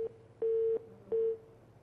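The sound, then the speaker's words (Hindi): A dropped phone call gives a few short, flat mid-pitched beeps separated by brief gaps over a faint line hiss. “एक call drop हो गए हमारे पास।”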